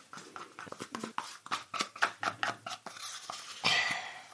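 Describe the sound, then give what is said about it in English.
A spoon stirs peanut flour from an opened capsule into a chocolate mousse pot, making many quick, light scraping clicks in a steady rhythm, ending with a slightly louder scrape. “And we open the capsule carefully over the mousse, and then we mix it in.”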